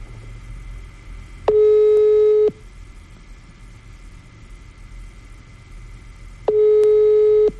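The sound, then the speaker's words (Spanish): Ringback tone from a telephone call that rings with no answer: two steady one-second tones about five seconds apart, loud over a low background rumble. “Márcale. Ahí está. Vamos a marcarle a Ramiro.”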